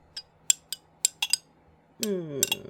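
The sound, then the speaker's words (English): A spoon swirls a drink in a cup. Light, bright metallic clinks come in an uneven run, followed by a denser burst of clinking. “I'm going to swirl it all together with my spoon.”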